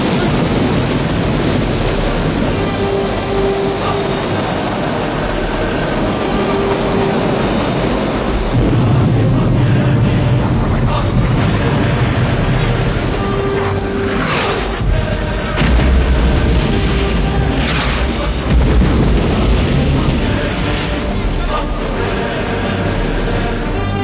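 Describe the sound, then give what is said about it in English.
A naval gun fires a warning shot across a ship's bow: deep, heavy booms break through a continuous loud rumbling wash of noise. “Put a shot across his bow.”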